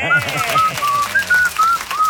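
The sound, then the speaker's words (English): A person whistles a wavering tune of several short, fairly high notes that slide up and down, with talking underneath. “Now you are whistling like a man that's just won $100 worth of hot chicken.”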